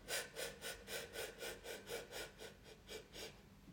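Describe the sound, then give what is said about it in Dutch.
Breathing in taken in many small, quick steps as a breathing exercise, a rhythmic series of short airy sniffs at an even pace, fairly faint and alone. “En dan adem je trapjes in.”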